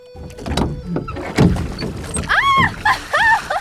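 A wooden rowboat rocking on the water, its timber creaking and knocking in an irregular series, with a couple of drawn-out, squeaky creaks near the end.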